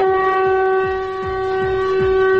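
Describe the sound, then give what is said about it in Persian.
A horn blasts continuously for a couple of seconds, a loud, steady, chord-like blare. Regular low knocking sounds pulse beneath it. “اینم یه بوق مشتی”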